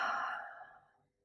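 A single long exhale during a breathing exercise: a soft, breathy rush of air that fades away over about a second.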